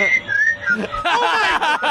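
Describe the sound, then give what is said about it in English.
Three men whistle in a played video: a few thin, wavering high tones that glide up and down, with voices mixed in around them. “Also, they're whistling.”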